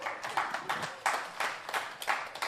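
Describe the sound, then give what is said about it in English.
Faint clapping from a church audience during a sermon, a sparse, evenly paced run of claps in quick regular bursts. “yeah, it's weird whenever people clap for you.”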